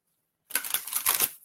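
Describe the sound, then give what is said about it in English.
About ten playing cards spill out of a deck in a quick, crisp flurry of papery flicks and clicks lasting about a second. “Like 10 cards just hopped out.”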